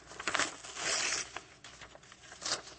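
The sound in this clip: Two pieces stuck together are torn apart, giving faint, crackly ripping and crinkling sounds in short irregular bursts.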